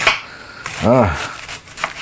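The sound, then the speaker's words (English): Knife slicing through cabbage: a few faint, crisp cuts spread across the moment, with a short tonal squeak in the middle. “Anyway, so I'm slicing more of this.”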